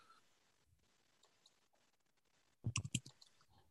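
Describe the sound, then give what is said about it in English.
Keyboard clicks of an email address being typed into an online chat: a short burst of several quick, crisp taps after near silence. “So to everyone, so my email address is the following. I'm writing down it on the chat.”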